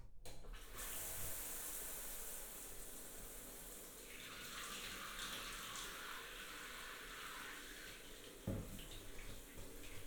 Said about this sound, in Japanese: 流しますね。